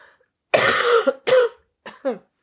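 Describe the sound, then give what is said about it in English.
Coughs from a person getting over a cold: a few dry, harsh bursts, the first the longest and loudest, with smaller coughs after it and no talk over them. “I'm still overcoming a cold, which I talked about in the last episode. It is a cold, so I have a bit of a cough”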